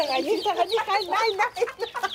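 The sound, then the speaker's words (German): Chicks of various crossbreeds peeping in a somewhat dirty incubator brooder, a dense, continuous chorus of high, wavering cheeps that overlap with hardly a pause. “Die Küken haben nicht nur eine rege Verdauung, sie sind auch extrem quirlig.”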